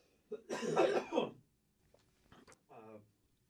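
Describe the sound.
Throat clearing and coughing from someone with something stuck in the throat: one long, harsh, rasping burst, then a few softer, shorter rasps after a pause.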